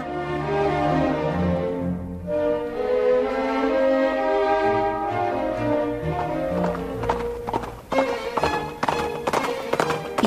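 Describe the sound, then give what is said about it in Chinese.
Horse hooves clip-clop as a rider hurries, with many sharp, quick clops in the latter part over a sustained tonal background. “急忙忙地骑着马来到小山丘”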